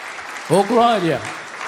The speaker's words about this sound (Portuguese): Então, pode bater mais forte, mais alegre as palmas para Jesus.